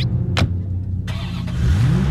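Corvette sports car engine revving: a loud, steady low-pitched drone whose harmonics climb in pitch near the end as the revs build. No voices are heard.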